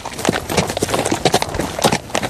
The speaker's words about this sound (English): In this 1980s video, a family rides via horseback in Nuku'alofa.